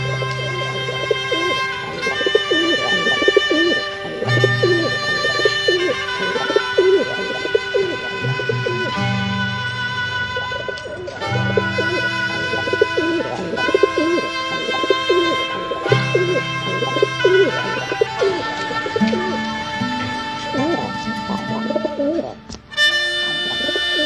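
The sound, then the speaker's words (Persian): Pigeons cooing: soft, low, throaty coos repeating in a steady rhythm throughout, moderately loud, with no voices. “چه کسی راز آن تپش قلب و بغبغوهای نجواگرانه را می‌داند و پیوندی که تا دم مرگ هم نمی‌گسلد؟”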